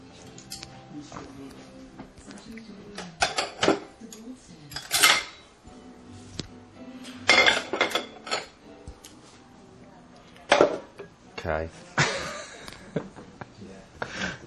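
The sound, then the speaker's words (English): A spoon clinks against a bowl during cleaning up, making several sharp, bright clatters scattered at uneven intervals over quiet handling noise, with talking in between. “Actually, I'm cleaning up, too. There's like a spoon with a bowl.”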